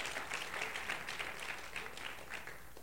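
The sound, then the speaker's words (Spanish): A church audience applauding during a sermon, a steady, even wash of many hands clapping that carries on throughout at a moderate, somewhat soft level. “Dale un aplauso al Señor.”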